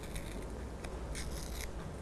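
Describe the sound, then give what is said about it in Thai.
Paper is torn slowly by hand in short, soft, crackly bursts of rough ripping noise, faint and continuous with no talk. “ค่อยๆฉีกเลยค่ะค่อยๆขยับมือหรือว่านิ้วมือของเด็กๆเข้าหาตัวเองแบบนี้เลย”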